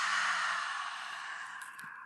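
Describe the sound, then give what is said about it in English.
A deep exhale through an open mouth during a guided breathing exercise, a long breathy rush of air that fades gradually over about two seconds. “Again, big inhale. Open the mouth, release.”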